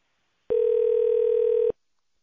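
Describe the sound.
A single ringback tone plays on a phone line while a call is being transferred. It is a steady, mid-pitched tone lasting just over a second, with silence before and after.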